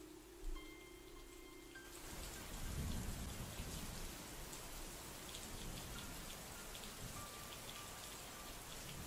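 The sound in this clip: Heavy rain pours down at night as a dense, steady hiss that starts after a quieter opening. A low rumble sounds early in the downpour, and no one speaks.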